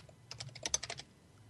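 Quick tapping on a computer keyboard as a Google search is typed in, a brief, rapid burst of about eight clicky keystrokes, quiet and otherwise alone.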